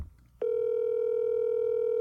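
Telephone tone on a call: after a brief quiet moment, a loud, steady single-pitched electronic tone starts and holds unbroken to the end.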